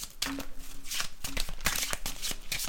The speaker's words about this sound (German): Gut, dann mische ich mal durch und dann kann ich ganz spontan eine fallen lassen.